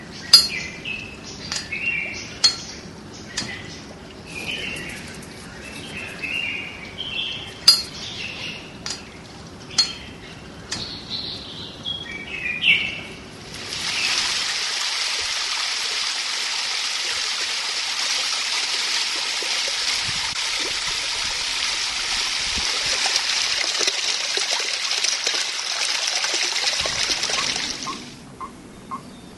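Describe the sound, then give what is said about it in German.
A spring garden soundscape: bright bird chirps and calls repeat over a soft background for the first half, then a steady rushing, flowing stream takes over and continues evenly to the end. “Das Gegenteil vom hektischen Treiben am Flughafen ist die Gartenidylle.”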